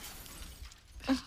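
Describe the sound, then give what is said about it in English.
Glass shattering sound effect: one sharp, bright crash with crackling high edges, heard alone near the end of the short clip over a low, steady background. “It was the glass shattering from our terrible singing.”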